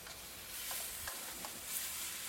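Faint frying sizzle and a few soft stirring knocks as a home-cooked meal is prepared in a kitchen; a steady low hiss runs throughout with no voices.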